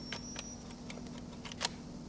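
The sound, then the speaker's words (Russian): A rifle bolt handle being slowly pulled back: a series of faint, crisp metallic clicks over a low steady hum, the loudest click coming near the end. “Берется за рукоять затвора, медленно тянет на себя.”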